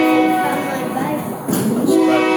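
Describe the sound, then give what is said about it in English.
A train passes with a loud, steady rumble and sustained tonal, horn-like harmonics, dipping briefly midway before swelling again. “You need to time that better with the train.”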